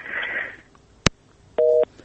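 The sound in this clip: A phone call cutting off mid-conversation: a faint hiss, then a sharp click followed by a single steady busy-signal beep, with a hint of a second tone starting at the very end.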